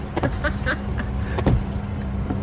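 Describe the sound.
Inside a Japanese car, a steady low engine drone runs throughout, broken by a few short clicks and knocks.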